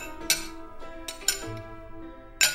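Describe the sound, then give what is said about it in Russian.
Wine glasses clink together in a toast, with several bright, sharp clinks, each leaving a ringing tone that lingers in the quiet between strikes. “Снова послышался звон чокающихся бокалов, а затем надолго повисла тишина.”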